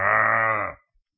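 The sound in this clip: A cow's moo rises once as a single low, steady, harmonically rich call lasting under a second, loud and alone, then cuts off into silence.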